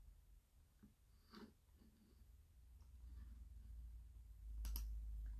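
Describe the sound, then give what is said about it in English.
A computer mouse clicking: a few faint, sharp clicks spread out over a low, steady hum. “And after you've clicked on select, you right click on move to.”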